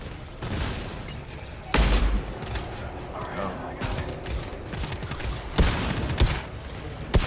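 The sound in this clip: Gunfire from a shooter video game crackles in many rapid shots and bursts, with heavier thumps among them, while several players talk over the shooting throughout.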